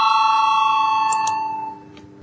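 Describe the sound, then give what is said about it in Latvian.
A bell rung in a parliament chamber to call members to a vote: a loud, steady, sustained ringing tone that holds for well over a second and then fades out. “lūdzu balsojumu, lūdzu zvanu”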